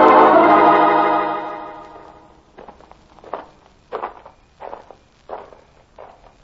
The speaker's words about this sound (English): Thought I'd find you walking in the garden.